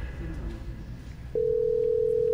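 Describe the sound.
A steady single-pitch telephone dial tone comes in partway through and holds unbroken to the end during a call, following a stretch of faint background murmur.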